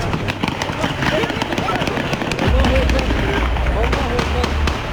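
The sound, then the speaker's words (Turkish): Gunshots ring out near the parliament building in Ankara, many sharp cracks in rapid, irregular succession over a dense background, with a deeper rumble setting in partway through. “Ateş ediliyor, ateş!”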